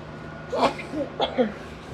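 Two short, breathy sneezes burst out in quick succession, each a sharp voiced blast that stands out loudly over a faint, steady low hum.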